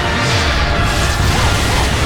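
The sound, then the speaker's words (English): A skyscraper collapses during a video game fight in a loud, dense, continuous roar of rumbling crash noise. The noise stays at a constant level throughout with no separate impacts. “Oh my gosh, the skyscraper is falling. We're crashing into the nearby skyscraper.”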